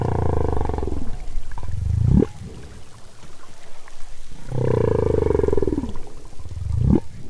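Humpback whale song: two long, low growling phrases, each ending in a quick upward trill. The growl has split into purring barks, and the pattern repeats with a short gap between the phrases.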